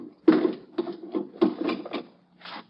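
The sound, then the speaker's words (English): Bolts being slid back on a crate holding high explosives: several dry, scraping wooden rubs and rasps in uneven bursts, some short and some drawn out, with brief gaps between them and no voices. “Just let me slip these bolts.”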